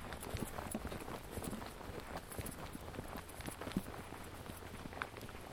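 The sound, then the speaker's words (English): Footsteps of a walker going along a public right-of-way path. The steps are faint, steady and rhythmic, with a continuous quiet background beneath them. “So we'll keep walking.”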